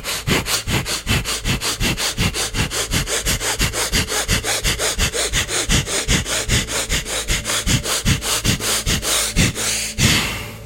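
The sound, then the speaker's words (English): Rapid, forceful sniffing breaths drawn in through the nose during a guided breathing exercise repeat in a fast, even rhythm of many sharp inhalations, strong and regular from start to finish. “Breathe in through your nose and out. Breathe in and as quickly and as hard as possible for the next few moments.”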